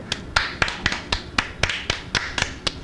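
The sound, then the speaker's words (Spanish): Applause for a young girl: many sharp, slightly irregular hand claps from a few people, moderately loud and steady, with no talking. “Bueno, un aplauso para ella.”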